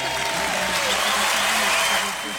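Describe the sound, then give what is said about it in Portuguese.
A round of applause for listeners during a radio show giveaway. Brisk, dense clapping runs steadily through the whole moment, with voices talking underneath. “vamos aí, uma salva de palmas para essas nossas ouvintes.”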